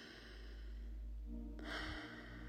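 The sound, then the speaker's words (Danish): A slow, deep breath is drawn in through the nose and let out through the mouth during a guided meditation. A soft, airy inhale is followed by a breathier, fuller exhale. “Lad os starte med en dyb indånding ind igennem næsen og ud igennem munden.”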